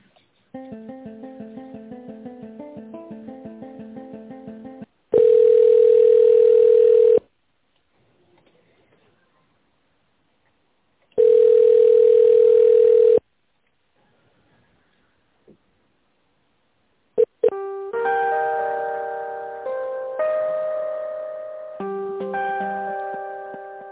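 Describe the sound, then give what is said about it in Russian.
Telephone ringback during a call transfer: two long, steady buzzing tones separated by silence. Before them comes a ticking, chiming electronic pattern, and afterward a synthesized melodic tune plays. “Сейчас попробую соединить. Ага, после соединения.”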